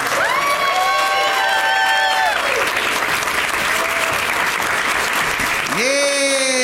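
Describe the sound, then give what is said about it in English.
Sustained audience applause as guests are welcomed onto the stage of a live show in San Antonio, dense steady clapping with cheers and whoops rising over it throughout. “They're really making you applaud for a long time”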